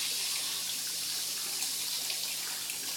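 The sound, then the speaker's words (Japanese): Shower water sprays steadily while hair is rinsed down toward the ends. It makes a continuous, even hiss at low level with no talk. “そしたら毛先の方に向かってシャワーを下げて、流れも流していっちゃいましょう。”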